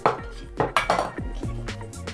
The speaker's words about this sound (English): Right, now put the tea bags on the teapot.